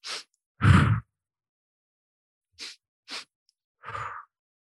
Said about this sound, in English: You breathe in for 2 strokes through your nose and 1 stroke out your mouth.